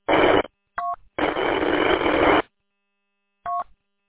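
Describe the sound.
Telephone keypad tones as numbers are keyed in: a few separate electronic bursts, one long and sustained, with silent gaps between them.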